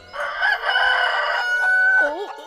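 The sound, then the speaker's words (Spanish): A rooster crows loudly in one long, drawn-out cry. The pitch holds steady before ending in a wavering, warbling tail. “¡Un pollo gigante!”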